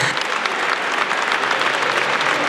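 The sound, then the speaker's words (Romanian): Applause in a parliament chamber after a short speech: many members clapping together in a steady, dense roll of claps that holds at an even level throughout. “Aplauze așadar pentru acest scurt discurs al lui Sorin Grindeanu”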